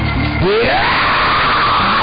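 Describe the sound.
A church audience screams and shouts praise: a loud, sustained yell that sweeps sharply upward in pitch and then holds steady, with no clear words.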